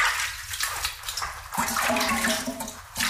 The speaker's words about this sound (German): Ich werde mich jetzt mal waschen.